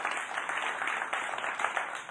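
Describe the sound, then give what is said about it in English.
Audience applause, a steady, even wash of clapping that holds at moderate loudness for the whole two seconds. “Y'all give them a hand online.”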